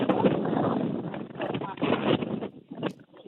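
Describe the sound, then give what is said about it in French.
Gusty wind buffets a telephone line, giving a loud, rumbling roar with uneven surges that thins out and drops near the end. “On entend beaucoup de vent. On entend le vent.”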